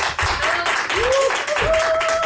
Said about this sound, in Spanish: Un aplauso para Laura Márquez.